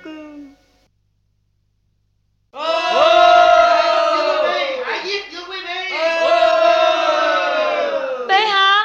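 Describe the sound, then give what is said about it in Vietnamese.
A crowd of commoners shouting and clamoring. A brief lone voice comes first, then a pause, then a loud, sustained roar of many voices that wavers and surges to the end. “trẫm nghe tiếng của dân chúng đang reo hò tở mở, họ muốn tràn vào đây để hỏi tội ai khanh”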